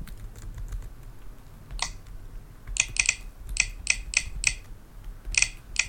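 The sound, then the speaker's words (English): Someone types a password on a computer keyboard: a few soft, scattered key presses, then crisp, quick clicks in short bursts. “Now, once you type your password, you will view right again or tab. Confirm your password.”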